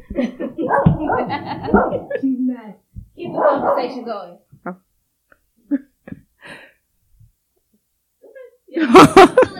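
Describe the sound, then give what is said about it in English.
Dog barking: a few sharp, loud barks burst out near the end, after a stretch of a person talking. “Oh, hold on, you guys, I gotta get my dog.”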